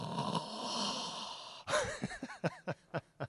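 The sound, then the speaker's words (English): A voice imitates the loud snoring of an elderly man asleep with his mouth wide open in a church front row: a long rasping, noisy breath, then a string of short, sharp snorting bursts. “as soon as the snoring would get really loud, they'd start poking him”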